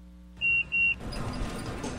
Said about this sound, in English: That's because we're in a souped-up six-passenger golf cart.